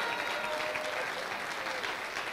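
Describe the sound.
Congregation applauding in praise during a church service, thick, continuous clapping that stays loud and even throughout the short stretch.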